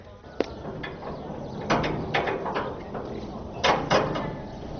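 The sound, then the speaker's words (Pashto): A prison door is opened with mechanical clanks and a sliding scrape: a sharp metallic knock, then a run of rattling, ratchet-like clicks and a few louder thuds, fairly faint and without voices. “پوهېږم، ضابطه دروازه خلاصه کړه.”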